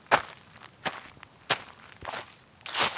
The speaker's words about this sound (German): und spaziert mit schnellen Schritten an seinen Limettenbäumen entlang